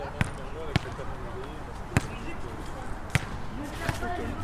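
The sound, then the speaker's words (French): A basketball bounces on an outdoor court in front of the Merlot, making a handful of sharp, irregularly spaced thuds while people talk throughout. “on est sur un terrain de basket juste devant le Merlot. Du coup, tu vas nous faire une petite démonstration de lancer à 3 points”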